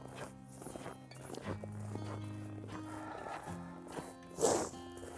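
Footsteps walk along a lakeside path at sunset, a few irregular soft steps over a low, steady hum, with one louder scuffing step near the end.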